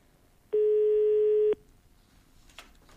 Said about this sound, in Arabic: دائما في محاولات اتصال